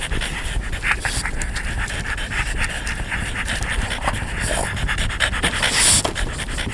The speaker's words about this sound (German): Die Hunde kicherten.